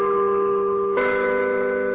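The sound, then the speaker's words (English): A church bell rings over a town square in a steady, sustained humming tone. Partway through, a fresh strike brightens and renews the ringing, which holds at an even level to the end. “A church bell rings over the town square.”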